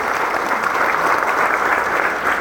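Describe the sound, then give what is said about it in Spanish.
Steady applause from a church audience honouring a group celebrating its anniversary, dense and even in loudness for the whole stretch with no talk. “Aplausos a estos hermanos que están de aniversario.”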